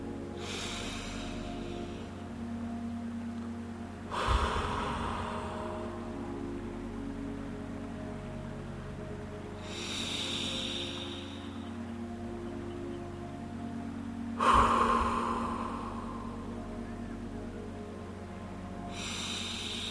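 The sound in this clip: A few slow, deep breaths, each a soft breathy rush of air, rise and fade at intervals over a steady low humming drone.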